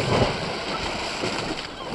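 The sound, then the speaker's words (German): A huge wave washes over a ship as someone jumps into the water: a loud, steady rush of churning water and spray, slightly stronger at the start, with no voices. “Eine riesige Welle schwappte über das Schiff, als Benjamin ins Wasser sprang.”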